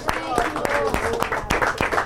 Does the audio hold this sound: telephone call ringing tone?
no